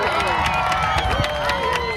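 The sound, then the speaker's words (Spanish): A large crowd on Malvarrosa beach clapping and cheering as a total solar eclipse ends. Dense applause mixes with shouting voices and crowd babble throughout. “un espectáculo que se pudo contemplar desde 9 puntos oficiales en nuestra comunidad y donde los aplausos acompañaron la finalización de este fenómeno natural.”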